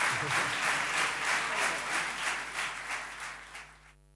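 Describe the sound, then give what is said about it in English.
Rowdy audience applause closes a live folk band concert recorded for radio in Bremen, a dense, steady roar of many clapping hands that swells in waves, then thins and cuts off near the end. “Yes, the band and some of the audience getting a bit rowdy there.”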